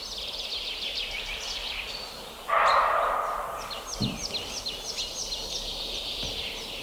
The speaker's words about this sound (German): oh, diese Meise macht mich wahnsinnig. Es ist da jetzt keine Sumpfmeise.